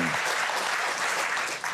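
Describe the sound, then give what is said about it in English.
A short burst of audience applause at a gathering supporting a donation-funded organisation, with brisk, even clapping that lasts under two seconds at steady volume. “I think we should just give him a round of applause.”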